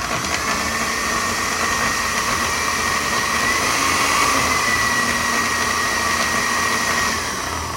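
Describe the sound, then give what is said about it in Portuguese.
A food processor blends a mixture of grated coconut, rice flakes, coconut oil, cane molasses, coconut milk and red food coloring, giving a loud, continuous whirring motor drone at a steady pitch for several seconds, with no talk. “Vamos passar aqui no meu processador tudo de novo,”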